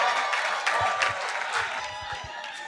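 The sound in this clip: An audience claps at a church service to welcome a pastor to the front. The applause is steady and fairly loud, with a few sharper claps standing out from the mass of sound.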